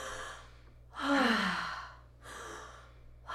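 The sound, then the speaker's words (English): A deep calming breath taken while holding a crying young child: slow, breathy inhales and exhales, the loudest a long audible sigh with a faintly voiced, falling tone, with no talk. “I would hold them and I would take a deep breath and go,”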